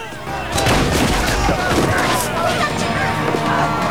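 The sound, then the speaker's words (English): Gunshots are fired into a ceiling: a loud, sustained burst of cracking blasts and booms that blend into dense, continuous noise. “Solo grabs the man's hand and fires his gun into the ceiling before throwing him aside.”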